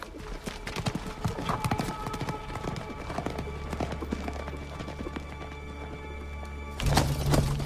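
Hooves of horses ridden by scouts through a pine forest toward mist, a steady stream of many clip-clopping strikes in uneven rhythm over a constant low drone, growing slightly louder near the end.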